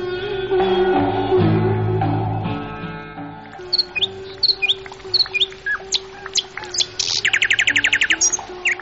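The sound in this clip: Birds chirping and singing: many short, high chirps and tweets arrive in quick irregular bursts, then a fast trilling run of rapid notes near the end. Sustained tones come before the birdsong begins.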